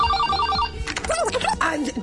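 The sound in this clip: An incoming-call telephone ring comes as a short, high, rapidly trilling burst, then gives way to a voice making animated vocal sounds.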